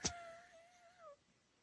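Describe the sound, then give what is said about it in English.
Lion cub giving one short, high, mewing cry after a brief sharp onset, the tone holding steady and then dipping at the end, faint and alone. “The lion cub leaps into your lap. Nice kitty! Nice kitty!”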